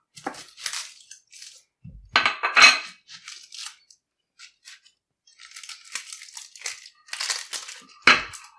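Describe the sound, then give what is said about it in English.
Dry crackling and rustling of an onion being peeled by hand, in short, irregular bursts separated by brief pauses. The sound is fairly faint and there is no talk. “That's the way you peel an onion.”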